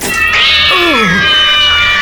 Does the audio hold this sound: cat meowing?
yes